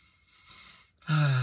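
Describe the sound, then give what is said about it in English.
A man takes a deep breath: a soft, airy inhale, then a louder voiced exhale like a sigh that carries to the end. “I take a deep breath on that one.”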